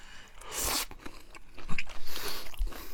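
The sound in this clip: Crunchy chewing of a seasoned young bamboo shoot snack (menma), reddish like chili oil: a few crisp bites and crackling crunches, fairly faint, with no talk.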